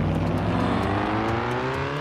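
Car engine in a virtual reality driving game, a steady loud droning roar whose pitch climbs throughout as the car accelerates.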